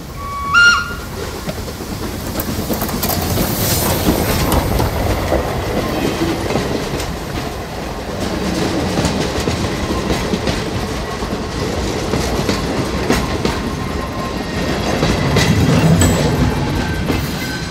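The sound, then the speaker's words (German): A four-cylinder Dubusque steam locomotive, built in 1887, runs on a southern rail line, giving a loud, continuous rumble with rhythmic clickety-clack of the wheels that swells and eases slightly, a sharper jolt near the start. “Das war eine Vierzylinder-Lokomotive von Dubusque. 1887 konstruiert. Sie fährt nur hier,”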